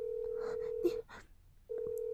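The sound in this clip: A telephone line tone hums steadily, breaks off for under a second and then resumes, while a voice cries and wails over it in a tense domestic scene.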